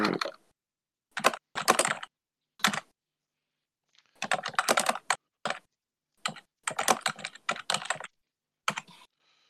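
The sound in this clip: Typing notes on a computer keyboard: many quick keystrokes come in several irregular bursts separated by short pauses, crisp and clicky, with no voices.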